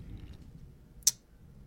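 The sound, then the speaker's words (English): A deck of cards is cut during a card reading, heard as a single crisp, sharp snap that stands out briefly against a faint, low background hum. “why don't you cut the deck and then pull the card of your heart?”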